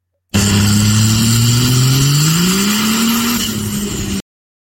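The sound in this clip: A high-powered truck engine making over 1,500 horsepower revs hard. Its loud droning pitch climbs steadily, then holds at a high, strained level before cutting off abruptly.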